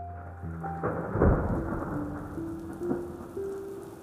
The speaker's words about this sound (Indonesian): Hujan deras menghantam Bandungku ketika petang tiba.